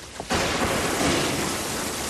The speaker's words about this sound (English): High winds, torrential rains, lightning, thunder.